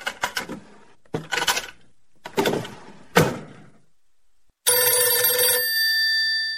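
An incoming call sets a telephone ringing with a loud, sustained, bright electronic tone. It follows a few clattering, door-like bangs and thumps, and there is no talk.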